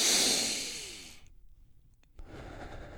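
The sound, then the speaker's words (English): A big, deep breath during a guided breathing exercise: a long, loud rushing breath fades away over about a second, then after a brief pause a softer breath follows. “After the last exhale, you're going to take one big inhale.”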